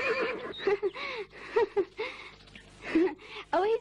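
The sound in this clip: A horse neighs in an animated cartoon, giving several wavering, high whinny calls in separate bursts with short gaps between them.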